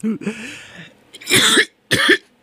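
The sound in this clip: Coughing from something stuck in the throat: two loud, harsh bursts in quick succession, each lasting a fraction of a second, with a short pause between them.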